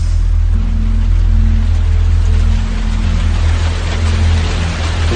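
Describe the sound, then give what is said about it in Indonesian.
Heavy rain pours down as a steady, dense hiss that fills the whole stretch without a break, with a low droning hum underneath and no voices. “tak lama kemudian hujan pun turun cukup deras.”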